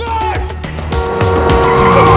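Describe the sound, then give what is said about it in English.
Tires screech as cars skid to a halt on a city street, a loud, sustained, high-pitched squeal with a low engine rumble underneath throughout. “Cars screech to a halt as Elle crosses the street, sliding over a car's hood.”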